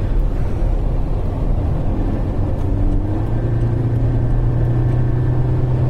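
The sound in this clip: An automatic car's engine hunts between gears while driving through a busy Barcelona motorway interchange, a loud, constant low drone of engine and road noise whose engine pitch shifts and climbs slightly partway through.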